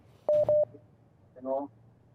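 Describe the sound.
Telephone call signal tone: two short, steady, pure beeps in quick succession, then a buzzier, harmonic-rich tone about a second later against quiet background.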